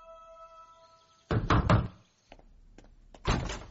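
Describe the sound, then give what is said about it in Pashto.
A lawyer knocks on a door: three sharp raps in quick succession follow a soft sustained tone, and after a quiet gap another loud burst of knocking comes. “څو ورځې وروسته د نظیم وکیل د قسیم دروازه وټکوله”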